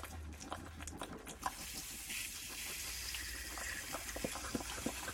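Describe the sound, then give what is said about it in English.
Water runs from a tap on a bottle dispenser into a tray underneath, a faint, steady trickle and splash with scattered small drips throughout, and no voices. “the water flows.”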